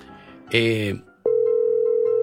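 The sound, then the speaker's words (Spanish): A steady, continuous dial tone comes on after a phone call drops. A short burst of a loud voice comes first, then the tone holds at an even level until the end. “Se cortó la llamada.”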